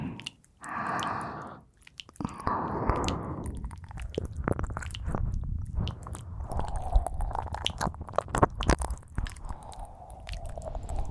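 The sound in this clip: Wet ear-licking mouth sounds in a Japanese roleplay ASMR session: continuous close squishy smacks, slurps and sticky tongue noises with no pauses and no talk.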